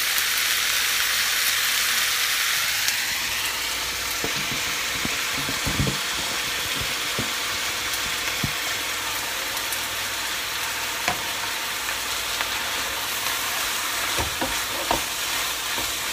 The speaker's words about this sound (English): Going to make sure this gets really mixed up together so the mince is no longer pink but it's brown.